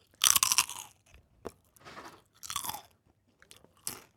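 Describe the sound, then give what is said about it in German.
Salted pretzel sticks are crunched in irregular bursts of sharp, crisp crunches and chewing, separated by quiet gaps. The crunches are loud and close. “Mal ein paar Salzstangen esse. Hier, das könnte ein ASMR-Podcast werden.”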